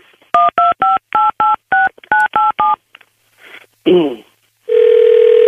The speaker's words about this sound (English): All right. We dialed in.